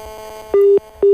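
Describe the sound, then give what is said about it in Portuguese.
Ringback tone of a landline being called during a radio phone-in: two steady, mid-pitched electronic tones with a short gap between them, the second cut off. “Mas como continua a tocar o fixo, vamos a mais uma tentativa.”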